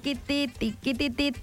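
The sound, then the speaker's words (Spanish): A voice imitates a telephone ringing for an incoming call, producing five short, rhythmic tonal pulses in quick succession. “Ahí está entrando la llamada.”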